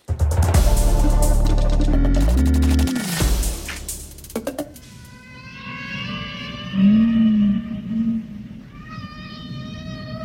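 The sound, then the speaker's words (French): Whales singing: drawn-out, tonal moans with gliding pitch and rich overtones, some sweeping upward or downward, moderately loud and without talk. “Ne se lasse pas d'entendre les baleines chanter”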